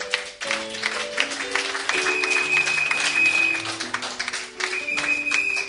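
A church audience applauds in praise of the Lord, a continuous patter of clapping layered over sustained keyboard chords that shift in pitch.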